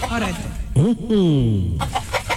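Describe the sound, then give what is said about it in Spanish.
A person vocally imitates a chicken, making clucking calls that swell into a long squawk whose pitch falls. The imitation is loud and heard alone, with a few shorter clucks before and after it. “Estoy cacareando, imagínese por qué.”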